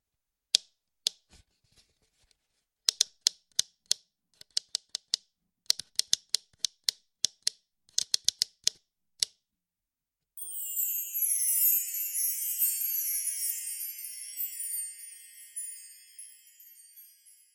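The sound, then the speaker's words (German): The rim of a plastic cup lid, pressed down alternately by the thumbs and let snap back, makes many sharp, dry clicks in irregular clusters, then gives way to a sustained, high-pitched hissing rattle. “Wenn ihr mit euren Daumen jetzt den unteren Rand abwechselnd nach unten drückt und zurückschnappen lasst, dann entsteht folgendes Geräusch.”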